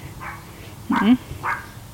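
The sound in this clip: Dogs bark outdoors by a summer cottage on a hot, sunny day: one short, yelping bark stands out, with fainter sounds around it.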